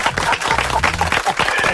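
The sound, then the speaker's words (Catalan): Audience applause for the actor Santi Ricard on a Catalan-language show. The clapping is loud and dense, with voices mixed into the crowd noise the whole time. “Un aplaudiment pel Santi, també.”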